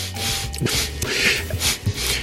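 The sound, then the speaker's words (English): A few short, breathy nasal sniffs from a candidate during an election, each a brief noisy burst of air at moderate loudness, standing alone without talk. “My favorite part of the election so far is Trump's sniffle.”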